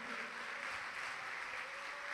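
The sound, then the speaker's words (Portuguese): Congregation applauding the Lord in a church service, an even, fairly soft patter of many hands clapping together, sustained without pause and heard alone. “Vamos aplaudir ao Senhor por isso.”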